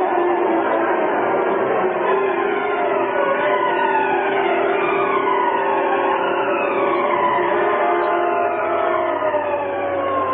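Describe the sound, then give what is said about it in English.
Police car sirens wail loudly and continuously during a chase through city streets, with several overlapping tones sweeping up and down in pitch over a steady low rumble, with no talking. “Behind the wheel of a Black Beauty, Britt Reed, wearing the mask of the Green Hornet, led the police in a wild chase through the city streets.”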